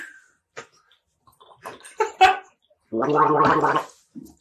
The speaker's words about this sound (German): Und wir trinken gerade einen erfrischenden kleinen Berliner Lüftchen, würde ich fast sagen.